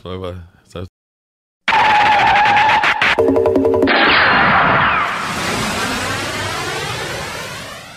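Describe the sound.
A jet aircraft passes overhead near LaGuardia Airport after brief talk, a loud roar with a sweeping, phasing whoosh that slowly fades.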